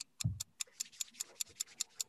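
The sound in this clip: A quiz game's countdown timer clock ticking in a quick, even run of sharp ticks, roughly ten in two seconds, with a low thud at the very start.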